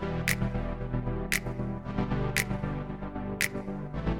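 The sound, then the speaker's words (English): Sustained chords open a music intro, with four crisp finger snaps landing at an even, steady pulse over the continuous harmonic backing. No voices. “So what I've done is I've duplicated the chords to the beginning and also the snaps. So it's this.”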